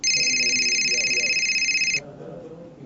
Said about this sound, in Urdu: ابو کو کال کرتا ہوں